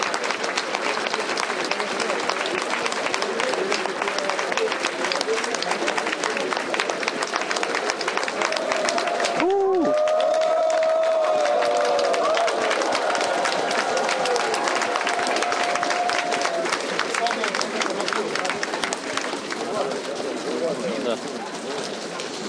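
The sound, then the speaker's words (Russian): Workshop participants applaud each other at the close of a group session. Dense, steady clapping runs throughout, with people talking over it. “Завершаем и похлопаем друг другу. Мы хорошо поработали.”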